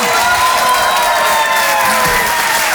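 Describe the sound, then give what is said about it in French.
Ovation from a live-show audience greeting a comedian, dense sustained applause mixed with cheering and shouts, loud and steady throughout. “Je vous demande de l'encourager très chaleureusement, de faire une ovation, s'il vous plaît, à Karine Dubernet.”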